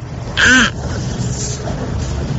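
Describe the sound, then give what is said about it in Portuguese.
A person imitates a crow's caw in a car: one loud, short, nasal call with a harsh buzzy tone, followed by quiet cabin noise. “Agora eu tô imitando o Corvo no carro aqui.”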